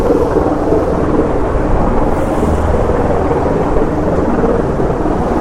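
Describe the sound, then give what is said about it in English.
Several helicopters fly overhead, making a loud, dense and continuous roar that stays steady throughout without distinct beats and with no talk. “Oh, so many helicopters.”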